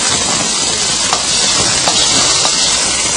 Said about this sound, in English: What is that? That's the sound of flesh sizzling.